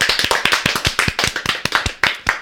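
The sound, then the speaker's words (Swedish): Hand clapping in celebration: a brisk, loud run of sharp, closely spaced claps that lasts about two seconds, with no voices. “är det läge för Flashback Forevers första applåd någonsin?”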